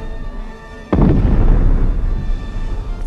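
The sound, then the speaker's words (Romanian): A cannon salvo during the 1527 siege of Castel Sant'Angelo: one sudden, heavy boom bursts out of a quiet hum, then a long, deep rumble slowly fades. “Trage, Benvenuto! Trage! Uite acolo, lângă casele din față, am văzut strecurându-se dușmani. Haide! Haide, o salvă bine țintită! Așa! Ai lovit în plin!”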